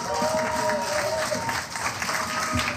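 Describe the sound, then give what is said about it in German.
Applause from a live audience after a song: a sustained, even wash of many hands clapping at a steady level across the whole clip. “Ich finde, das ist noch ein extra Applaus wert.”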